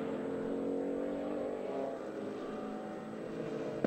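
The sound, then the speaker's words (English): A Porsche Cayman race car drafting behind the car ahead on the track at Sebring, heard as a continuous engine roar that holds a fairly even loudness throughout, with no talk. “Dylan Machevin in the RS1 Cayman, remember that was the car that led early on, trying to get the draft from the car ahead of him.”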